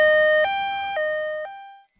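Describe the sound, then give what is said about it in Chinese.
An ambulance siren alternates between two tones about every half second. The sound is loud and steady, then fades out at the end. “120救护车！”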